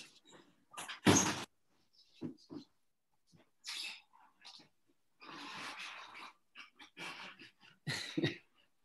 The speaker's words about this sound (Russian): Закрой окно, подождите.